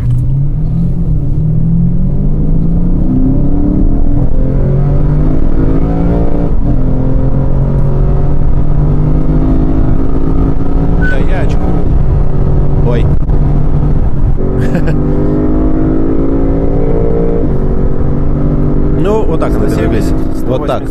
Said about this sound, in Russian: Это обычная-обычная езда, в принципе, не особенно сильно наваливая. Если взять разгон с нуля, то выглядит он примерно вот так.